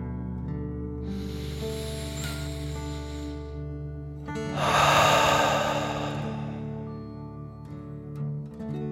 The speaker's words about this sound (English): let's take one more deep dragon breath in and out.